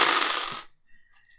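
Dice, the stress dice of a tabletop roleplaying game, are rolled in a brief bright rattling burst that ends abruptly, followed by a few faint ticks as they settle.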